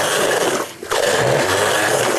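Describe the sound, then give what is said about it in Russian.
A blender purees boiled vegetables right in the pot, still on the heat. It makes a loud, continuous whirring grind that dips briefly partway through, then resumes at full strength. “Овощи наши сварились, поэтому мы сейчас блендером прямо здесь все взбиваем.”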